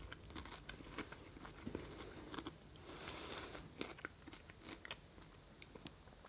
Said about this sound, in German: Also für die, die sagen, man darf nicht im Podcast essen, könnt abschalten.